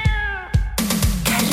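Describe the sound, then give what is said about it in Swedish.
A cat meows loudly in drawn-out, tonal cries, with a few short, dull knocks sounding between them. “Vi får hit katten nu då. Okej, nu kommer katten. Här kommer den.”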